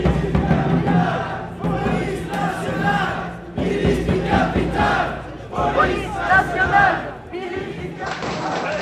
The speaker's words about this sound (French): Ça, c'est la police qui expulse les indésirables.